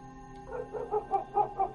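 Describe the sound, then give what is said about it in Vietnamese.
Two black dogs bark in a quick run of short, soft yapping barks at an even rhythm, with no voices. “Hai con chó mực nhà lão Bằng bấy giờ từ trong nhà mà sổ ra ngoài, sủa lên nhấm nha nhấm nhặng, rát ruột.”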